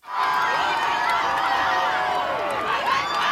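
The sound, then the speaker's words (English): Thousands of people lining the streets of Madrid welcome Pope Leo, a dense, steady roar of cheering and shouting voices that holds loud and unbroken throughout. “thousands of people line the streets of Madrid to welcome Pope Leo.”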